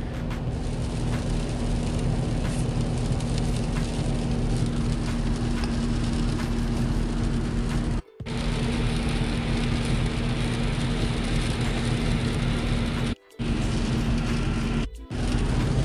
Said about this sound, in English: I apologize. I am driving and got cut off.